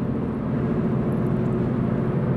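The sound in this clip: A car drives along the Catactan Mountain Highway, producing a steady, even low rumble of road and engine that holds without a break.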